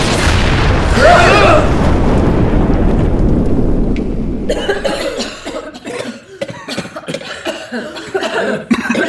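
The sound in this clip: Harsh, rough coughing from too much smoke fills the first half, loud and breathy, and then gives way to talking.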